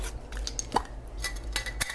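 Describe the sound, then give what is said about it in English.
A bottle of salad dressing shaken by hand, giving scattered knocks and light clinks in an irregular rhythm over a low background hum. “give the salad dressing one more shake”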